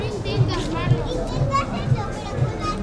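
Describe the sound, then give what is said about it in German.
Children play between restaurant tables in harbour lanes at night, their lively voices rising and falling over a steady low beat that pulses about twice a second. “Inzwischen ist das Nachtleben in den Hafengassen erwacht. Kinder spielen zwischen den Tischen der Restaurants.”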